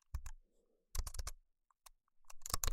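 Typing on a computer keyboard: quick clusters of crisp keystrokes come in a few short bursts separated by pauses, fairly faint and with no voices.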